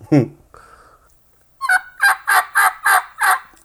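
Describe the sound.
Raspy yelps from a turkey mouth call, rasp produced by separating the top reed. A short sound and a thin held tone come first, then a rhythmic run of loud, gravelly yelps.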